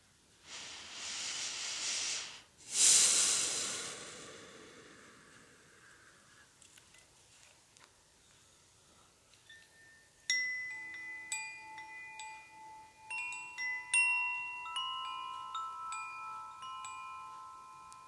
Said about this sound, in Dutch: Je hoort de klanken van het windorgel.